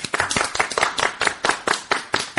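A studio audience claps together on a children's riddle show, producing many crisp, evenly spaced claps in a quick, steady rhythm.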